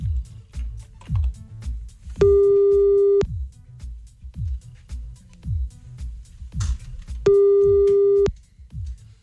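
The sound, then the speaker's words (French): Telephone line tone on a call to Canada: two steady, loud electronic beeps, each lasting about a second and spaced several seconds apart, over a pulsing low beat. “On appelle au Canada. C'est parti.”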